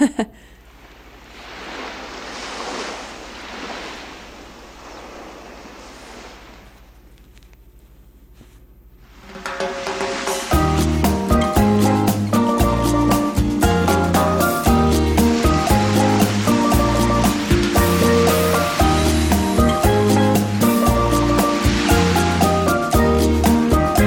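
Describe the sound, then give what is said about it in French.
Ocean surf rushes steadily on its own for about nine seconds. Then a loud, upbeat music track with bass and melody comes in, and the waves carry on faintly beneath it. “Ça, il y a les vagues aussi derrière.”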